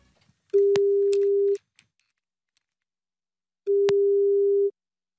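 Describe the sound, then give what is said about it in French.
A telephone ringing tone sounds as a call is placed to wish someone a happy birthday: two steady, low electronic tones, each about a second long, separated by a silent gap of roughly two seconds. “On va essayer de lui téléphoner maintenant. On va essayer de lui souhaiter, en votre nom, un bon anniversaire. Allez, on tente le coup, Béa, tu fais le numéro, s'il te plaît”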